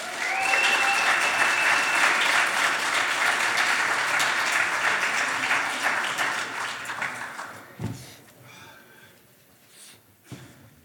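An audience applauding to welcome a comedian on stage: loud, dense clapping that holds steady, thins out after several seconds, and ends with a few scattered claps.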